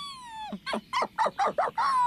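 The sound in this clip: A dog whines, first a long falling cry and then a quick series of short, high whimpering yelps. The sound is fairly loud and there is no speech.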